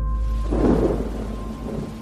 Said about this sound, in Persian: همون موقع بارون گرفت.